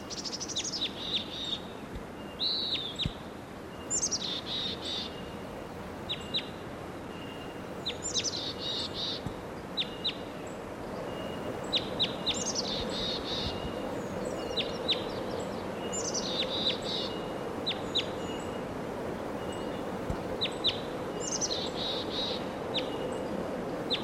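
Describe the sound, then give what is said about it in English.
A wild bird calling: many short, high chirping bursts repeat every few seconds at a fairly regular pace over a soft, steady background hiss with faint insect-like buzzing. “there's that wild bird.”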